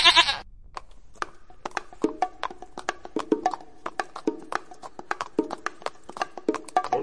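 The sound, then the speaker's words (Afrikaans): A small goat bleats near a shack in a township, giving several short, wavering bleats among many sharp clicking sounds. “Sy hoor iets. Wie is daar? Maar dit was net 'n bokkie.”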